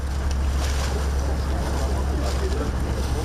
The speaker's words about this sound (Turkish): İstanbul Boğazı'nda bu kez savaş gemilerinin geçişi vardı. 30 Ağustos Zafer Bayramı'nın yıl dönümü için Türk Deniz Kuvvetleri'nin 15 gemisi Boğaz'ı geçti.